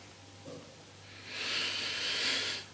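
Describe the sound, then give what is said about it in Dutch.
One deep breath drawn by a man giving a Bible talk, a long, airy, breathy hiss lasting over a second. A faint short sound comes before it. “Ik haal even diep adem.”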